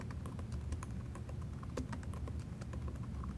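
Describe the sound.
Password typed on a computer keyboard: many rapid, light keystrokes clatter in an uneven but steady stream, without pauses or talk.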